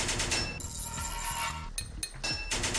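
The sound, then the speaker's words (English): Gunfire in a video game on a pipe level, heard as a few quiet, sharp shots and short bursts with metallic clinks, spaced by brief gaps. “Had to use the gun.”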